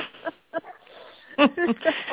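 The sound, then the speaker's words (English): Dogs barking outdoors near a parked car, a few sharp barks interleaved with a person talking. “Excuse the barking dog, folks. Sorry about that. Unfortunately, the place where I parked happens to have dogs.”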